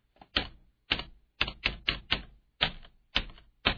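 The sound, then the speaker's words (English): Sharp clicking taps on a computer keyboard's space bar, picking out a song's melody: about ten crisp taps in an uneven, song-like rhythm, some spaced wide and others in quick clusters, with no talk. “So I'm going to, it says, please tap the song's melody using your space bar.”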